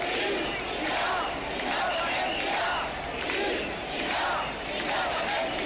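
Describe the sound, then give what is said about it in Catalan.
A mass demonstration organized by the ANC and Òmnium Cultural chants along Rambla Nova in Tarragona. A huge crowd roars its slogans in rhythmic waves, the loudness swelling and easing in regular pulses over a constant wash of voices. “Així clamava la Rambla Nova de Tarragona aquest diumenge a la tarda, que ha viscut amb la mobilització de l'ANC i Òmnium Cultural la manifestació més massiva de la història de la ciutat.”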